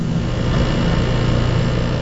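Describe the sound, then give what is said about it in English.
Steady low hum and whirring of equipment as sensors are calibrated in a lab that measures emissions from gas stoves, a constant droning tone without breaks. “This is the sound of Rob Jackson calibrating sensors at his lab at Stanford University.”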